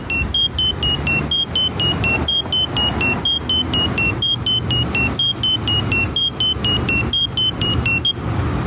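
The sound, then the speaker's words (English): Steady rumble of cars in parallel road traffic passing a crosswalk, with a crossing signal's fast, evenly spaced high beeps repeating throughout over the continuous traffic noise. “And we also got some parallel traffic, as you can hear.”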